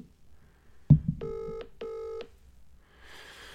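An outgoing phone call rings out: a sharp click, then two short, evenly spaced ringback tone bursts, fairly faint, followed by a soft hiss.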